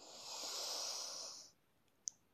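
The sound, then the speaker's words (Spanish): A deep inhale during a yoga breathing exercise: one long, airy, steady hiss lasting about a second and a half that then fades to near silence, followed by a single faint click. “Inhala.”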